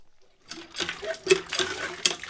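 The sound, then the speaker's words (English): Dishes being washed under an outdoor water pump between rice paddies in northeast India: running, splashing water with a few clinks and clatters of crockery and pans, moderately loud. “washes dishes under an outdoor pump between rice paddies”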